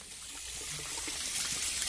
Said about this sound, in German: Vor jedem Unterricht am Waschbecken im Klassenraum die Hände waschen.